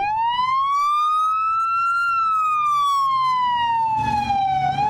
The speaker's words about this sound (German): Das denn hier? Houston Police ist das. Fährt hier lang über einen Platz.